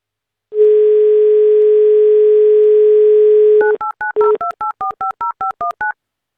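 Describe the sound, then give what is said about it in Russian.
A steady telephone dial tone holds for about three seconds, then a quick run of short two-note keypad beeps follows as a call is placed. The tones are clear and alone, with no voices. “нам нужно все-таки до Андрея дозвониться. Мы это сейчас с вами и сделаем.”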